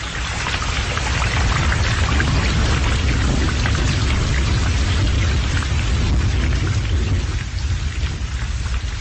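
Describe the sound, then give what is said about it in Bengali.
Heavy rain pours down in a storm, a dense, loud and continuous hiss that never lets up. A deep thunder rumble runs underneath, and no voices are heard. “হঠাৎ কোত্থেকে এসে বাধা দিল প্রচণ্ড ঝড় বৃষ্টি।”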